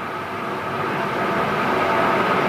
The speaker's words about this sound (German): Die Bahn fährt immer.